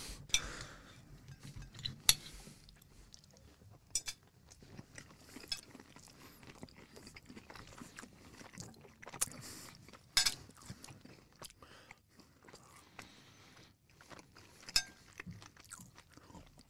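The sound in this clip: Crunching and chewing of fresh food with bacon, eaten in a car, with many irregular crisp bites and mouth sounds at moderate loudness and no clear talk.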